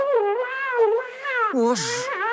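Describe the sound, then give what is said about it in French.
A cat meows in a long, wavering call, then gives a second meow that slides lower in pitch. The calls are loud and clear, with no other sounds. “Mais non, Zapatin, le tape pas. Sacha, mon chat, allez, viens.”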